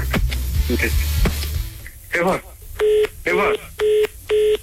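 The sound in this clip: Telephone tones while a call is dialed and rings out: four evenly spaced, steady electronic beeps in a regular rhythm. They follow a stretch of people talking over a low hum.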